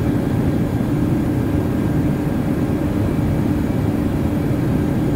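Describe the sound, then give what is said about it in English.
Constant engine drone of an airplane flying in a flight simulator video game, hand-flown with the yoke and without autopilot. The roar is steady and unbroken, with no voices. “I took off the plane using the freaking yoke. Whoa! I'm flying right now without any autopilot at all.”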